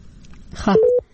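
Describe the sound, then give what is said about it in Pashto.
A telephone line cutting off during a call. A short fragment of voice gives way to a steady electronic beep tone, which stops, and then a second beep begins. “تاسو د دوی د ټلیفون لائن کټ شو”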